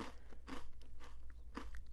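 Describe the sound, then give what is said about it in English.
Faint crunching bites into a homemade cinnamon raisin cookie that had been frozen and defrosted, giving a few brittle cracks and crumbly chewing noises with no talk. “I love the crunch. Isn't the crunch great? And you get the cinnamon, and the raisins are plump.”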